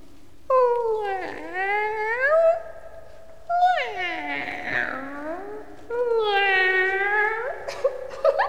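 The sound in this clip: A cat meows three long, drawn-out times with wavering, sliding pitch, each call loud and separated by a short pause.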